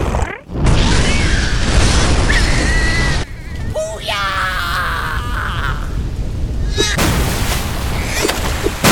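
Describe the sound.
A methane explosion set off behind barricades at a waste field: a sudden loud blast, then a sustained roaring, crackling rumble that lasts throughout, with voices shouting over it.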